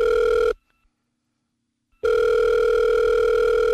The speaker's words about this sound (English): And let's dial them up and let's check the past voicemails for the last, I don't know, a couple of years, I guess.